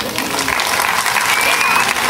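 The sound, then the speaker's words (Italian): An audience applauds with dense, steady clapping that fills the whole stretch at an even, fairly loud level. “Un applauso.”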